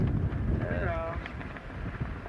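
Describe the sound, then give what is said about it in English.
Gale-force wind of about 40 knots roars over the deck of a sailing ship in steep seas, a steady low rumbling buffet across the whole moment. “Over the deck we've got about 40 knots of wind, which is gale force.”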